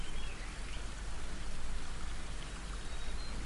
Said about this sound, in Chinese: 流水的声音包围住你